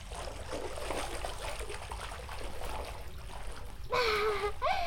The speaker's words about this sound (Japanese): さっぱりするね。まったく、顔を洗うことすら贅沢になるとは思ってもみなかったよ。